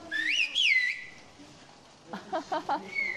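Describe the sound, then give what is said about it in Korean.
Whistled language exchanged between villagers in a Turkish-speaking community, with loud, piercing whistles that slide up and down in pitch, a run of short, quick notes, and then a final held whistle. “Buradan oraya karşılıklı ıslık yapacağız. 주민들의 80% 정도가 아직도 휘파람 언어를 사용한다고 합니다.”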